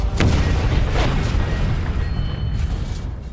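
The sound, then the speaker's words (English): Explosion as a rocket strikes a diesel tanker: a sharp blast near the start swells into a dense, sustained roaring rumble that stays loud throughout. “The last rocket hit our diesel tanker. It didn't create the huge boom like the first one did, but the area filled with even more black smoke in all directions.”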